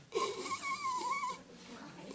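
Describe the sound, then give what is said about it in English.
A voice imitating a winded gasp for breath after getting the air knocked out by a fall from a swing set: a strained, wavering, high wheeze held for about a second, then a quieter breathy tail. “Bam! And the lungs collapse, and you try to breathe, and it doesn't work.”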